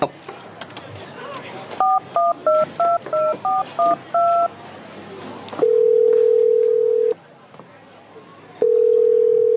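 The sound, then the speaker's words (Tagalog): A telephone call is dialed. A quick run of electronic keypad beeps is followed by a long, steady ringing tone, a pause, and then the ringing tone again. “Ang mayo pa, tawagan ko siya bala.”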